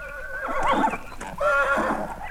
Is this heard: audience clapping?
no